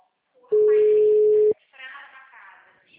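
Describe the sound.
A steady telephone ringback tone of about a second sounds as an outgoing call is placed. A voice talks over the tone and continues after it.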